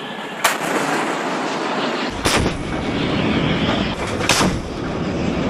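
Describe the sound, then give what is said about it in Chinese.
A warship's naval gun fires at targets, three heavy booming blasts spaced about two seconds apart, each a sharp loud crack over a constant roar of wind and engine noise, with no talk. “在舰炮射击科目中，遵义舰率先出战，在规定时间内成功命中全部目标。”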